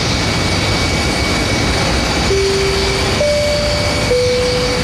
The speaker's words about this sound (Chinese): 欢迎大家乘坐澳门航空公司 NX00 澳航班机，由澳门前往首都北京。